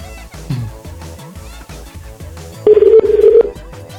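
Telephone keypad dialing tones, a quick run of short, loud beeps over continuous background music.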